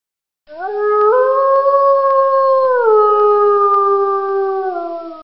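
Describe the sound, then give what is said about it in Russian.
A wolf howls in pain, a single long, loud, sustained cry of about five seconds whose tone steps up slightly early on, then drops and wavers lower toward the end. “Взревел волк от боли.”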